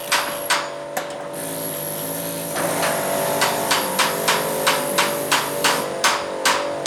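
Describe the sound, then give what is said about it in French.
Hammering at a construction site: many sharp, regular blows with a short pause early on, then a steady, evenly spaced run of strikes over a constant background hum. “On a aussi sur les chantiers les sons qui nous suivent.”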